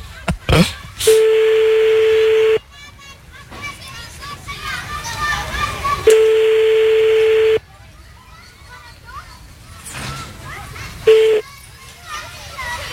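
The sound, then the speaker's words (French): A telephone ringback tone sounds while a call is placed again, steady tone bursts with pauses between, two long ones and a brief third, while children's voices and chatter fill the gaps. “Bon, on rappelle. Ça sonne.”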